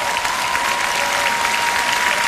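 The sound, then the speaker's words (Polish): An audience applauds ten competitors vying for a prize with a brief, dense burst of clapping that stays steady and fairly loud from start to finish. “Drodzy Państwo, wielkie brawa dla całej dziesiątki, która walczy o nagrodę premier.”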